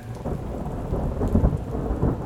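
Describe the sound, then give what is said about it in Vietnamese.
Thunder rumbles through a night rainstorm. A low, continuous roll with swelling peaks sits over the steady hiss of rain, with no voices. “Tiếng sấm chớp vang dội như uất ức tràn ngập cả căn phòng.”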